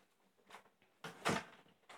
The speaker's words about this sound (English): You want me to shut the door? Okay.